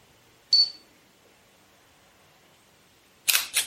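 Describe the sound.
Camera taking photos: a sharp click with a brief high tone near the start, then after a long quiet pause a quick double shutter click, with no talk.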